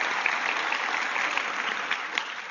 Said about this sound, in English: if three or four of you are clapping